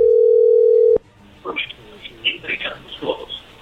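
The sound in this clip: A telephone call opens with a steady, loud dial tone that holds for about a second and then cuts off sharply. Conversational speech follows on the line.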